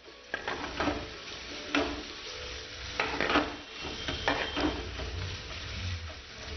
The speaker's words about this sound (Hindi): ये हमारी प्याज ब्राउन हो रही है।